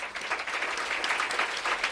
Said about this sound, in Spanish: Son los aplausos de sus compañeros de parrilla.